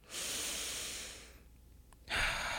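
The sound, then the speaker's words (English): Deep breathing: one long, airy breath, a short pause, then another breath starting strongly near the end. “Breathe with me.”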